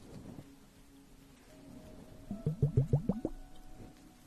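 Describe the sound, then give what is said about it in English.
Bubbles crackle inside an ice globe held against the ear during a facial spa treatment, a quick run of soft, faint liquid plops bunched together near the end after a quiet stretch. “And now I'm going to just place the ice globe by your ear. So you can just hear the bubbles.”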